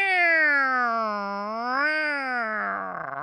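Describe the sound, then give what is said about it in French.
A human voice imitates a kitten's meow with one long, tonal mew. It dips in pitch, swells up briefly, then slides down and trails off with a wavering flutter. “Elle aime ça quand je fais le chaton. Attends un peu. Je l'avais mieux que ça hier.”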